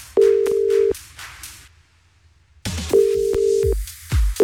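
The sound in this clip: Ringback tone of an outgoing telephone call to a listener, two long, steady tone bursts separated by a pause of about two seconds, followed by a faint click.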